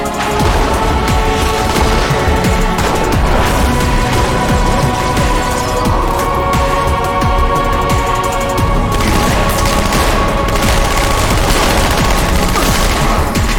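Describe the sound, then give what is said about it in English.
Rapid gunfire in a video game: a dense, nonstop stream of shots stays loud and steady for over thirteen seconds, with no talk. “Interesting choice. They shoot a lot of bullets.”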